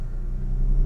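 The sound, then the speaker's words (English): A loud car's engine runs while driving, a steady, deep rumbling drone that holds throughout and swells slightly toward the end. “This car is so loud.”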